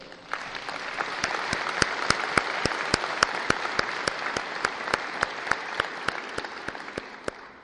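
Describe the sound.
A church audience applauds in acclamation during a service. A sharp, regular beat of claps in unison runs over a dense bed of scattered clapping, keeping a steady rhythm throughout.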